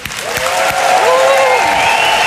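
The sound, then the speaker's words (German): Huge applause and cheering as an astronaut is called onto a stage: loud, sustained clapping from a large crowd that builds in the first second and then holds steady, with voices calling out through it. “Ihr hört schon, Riesenapplaus”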